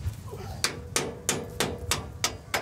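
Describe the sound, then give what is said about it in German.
A hammer drives a bolt back into place during a field repair at the wheat harvest, with a steady series of sharp metallic strikes in an even rhythm over a low background rumble. “Jetzt müssen wir den Bolzen hier wieder reinpulen,”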